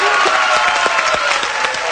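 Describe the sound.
A game show contestant's cheering section claps loudly in a thick, continuous burst. A few higher cheers and shouts ring out over the clapping.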